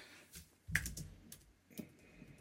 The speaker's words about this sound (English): Okay, yeah, I can type that in.